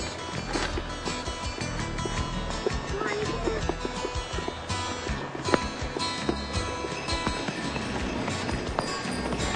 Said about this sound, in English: And a sleigh ride. Ooh, watch your fingers. That really is a one-horse open sleigh.